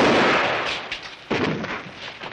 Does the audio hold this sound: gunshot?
yes